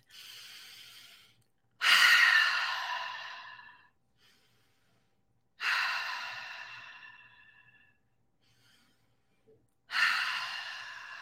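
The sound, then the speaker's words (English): Slow, deep breathing, with long airy exhalations that each surge suddenly and taper away over about two seconds, repeating at an unhurried pace with near silence between them. “At that moment, I will take a really deep breath.”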